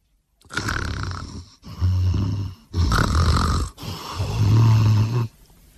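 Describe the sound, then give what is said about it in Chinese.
A voice imitates loud snoring, as of a sleeping man snoring like thunder: four long, rasping snores in a row, each a rough rumbling drone with a brief pause between. “里边呼吸均匀，有一个人，还有一个人鼾声如雷”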